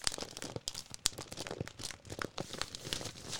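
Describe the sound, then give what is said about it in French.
Newspaper pages rustling and crinkling in many quick, dry bursts of handled paper, moderately faint and continuous, with no talk. “il y a ce bruit. Ce bruit magique du papier.”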